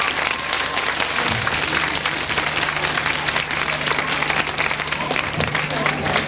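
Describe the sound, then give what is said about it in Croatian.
Audience applause greets children from a children's home at a public gathering: dense, steady clapping from a large crowd that holds an even loudness for the whole stretch, with a low hum running underneath. “Idemo svi da ih pozdravimo jednim velikim aplauzom.”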